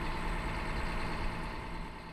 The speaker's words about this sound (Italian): marcia avanti, accendiamo la fresa togliamo il freno a mano e via i cingoli si muovono